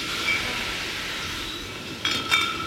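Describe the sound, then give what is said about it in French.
Glass bottles clink as they are fed into a labelling machine that fits caps and applies labels. A steady mechanical hiss runs throughout, with two bright clinks near the end. “Et ensuite, elles partent dans la machine, dans l'étiqueteuse, qui met les capsules et qui met l'étiquette sur la bouteille. Ok, bon, bah on va commencer à mettre quelques bouteilles.”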